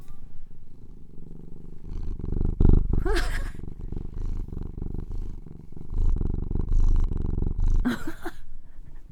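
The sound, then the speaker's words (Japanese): An overweight, heavyset cat purring makes a low, rumbling, pulsing drone that swells and eases throughout, with a couple of brief louder bursts along the way. “このなんていうんですか、喉のゴロゴロ音がね、やっぱり体格がいいと大きいんですかね”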